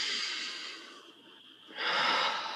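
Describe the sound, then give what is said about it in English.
Deep breath in and out during a guided breathing exercise: a soft airy inhale, a short pause, then a stronger hissing exhale, all heard alone without talk. “So take another deep breath in and out.”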